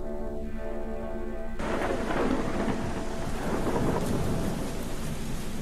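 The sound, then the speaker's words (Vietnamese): Heavy rain pours during a windy night thunderstorm, a dense, constant loud hiss with deep low rumbling that thickens and grows fuller after the opening moments, continuing unbroken to the end. “Đêm định mệnh đó là một đêm mưa gió bão bùng. Ở bên ngoài trời mưa dữ lắm.”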